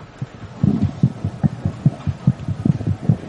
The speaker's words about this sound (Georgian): ექოსკოპიის კაბინეტიდან კი მუცლად მყოფი ბავშვის გულის ფეთქვის ხმა გაიგო.